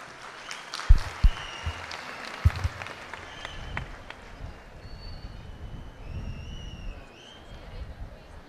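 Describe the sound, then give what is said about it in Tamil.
An audience gives sustained applause after a motivational speech, a dense wash of clapping with a few sharp louder claps early on and some high whistles rising over it later. “எழுச்சி உரையாற்றிய ஈரோடு மகேஷ் அண்ணா அவர்களுக்கு உங்களது உற்சாகமான கரவொளி”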